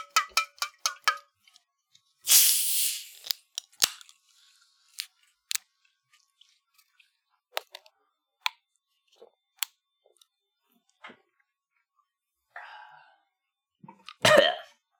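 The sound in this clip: Cans of Moon Mist soda cracked open: a sharp, fizzing hiss bursts out near the start, small clicks and taps follow, and a second loud fizzing burst comes near the end.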